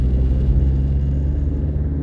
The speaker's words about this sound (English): Sorry, people, I'm driving right now.